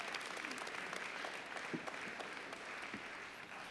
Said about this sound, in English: Put our hands together for Richard.